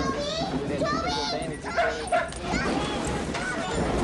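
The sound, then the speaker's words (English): A dog whimpers and yips in high, whiny bursts as a family hurries to a storm cellar ahead of a tornado. Urgent voices talk over and around the dog throughout. “The dog scampers downstairs after them.”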